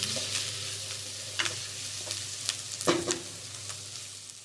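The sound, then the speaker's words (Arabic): Onions fry in a pan as they are stirred toward caramelizing. A soft, steady sizzle runs underneath, broken by a few short scraping stir strokes, and the sound stays quiet throughout. “فهنفضل نقلب ثلاث دقايق المفروض يبقوا كفايه عشان نبتدي نشوف اللون البني اللي احنا عايزين نشوفه الكارملايزد اونيونز”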